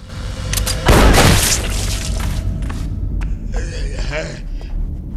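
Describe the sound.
A heavy boom as a tripwire hidden under a cobweb fires several overhead shotguns in a corridor. One loud blast leads into a lingering rumble, followed by lower thuds and scattered clatter.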